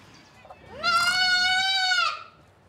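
A young goat kid gives a single drawn-out bleat of about a second and a half, loud and clearly harmonic, its pitch rising briefly at the start, then holding steady before breaking off, alone with no talk.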